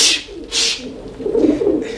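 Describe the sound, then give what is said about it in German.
Pigeons being fed coo in low, throaty tones. The cooing swells in the second half after two short, bright noise bursts at the start. “je mehr man sie füttert, umso dreister werden sie, diese Tauben”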